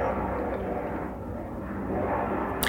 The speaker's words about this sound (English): Sorry about the airplane going over. Can you hear it?